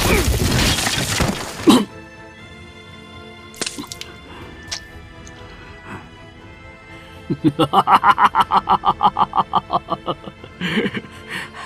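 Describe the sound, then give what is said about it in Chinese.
A heavy crash in an audio drama as a body slams onto eaves and smashes through a roof: a loud, noisy burst that breaks off sharply, followed by scattered sharp hits and later a run of rapid rhythmic pulses. “重重地摔在了屋檐上，砸穿了房顶，跌落下去。”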